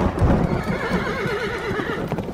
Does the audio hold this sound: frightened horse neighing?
yes